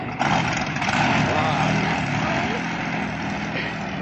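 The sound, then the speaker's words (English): The cold motor of a stalled vehicle roars in a loud, steady drone that holds without a break for about four seconds. “If the engine's broken down and we're stranded up here, I think I'm going to throw a fit of hysterics. Relax. There's nothing wrong with the motor. It's just cold, that's all.”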